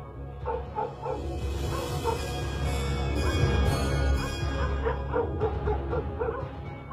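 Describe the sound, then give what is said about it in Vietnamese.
Dogs barking in a village: many overlapping barks and high yips in a dense, continuous chorus of fairly loud, short calls, with no talking. “Ở trong làng lập tức tiếng chó cắn ma sủa lên nhấm nha nhấm nhặng, tiếng gà qué kêu quang quác.”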